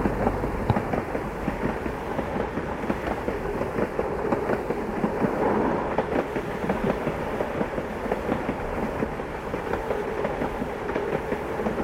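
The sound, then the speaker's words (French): A train pulling out of a station gives a loud, continuous rumble with dense clattering and clacking throughout, steady in level and without voices. “Le train s'est mis en route et sort de la gare.”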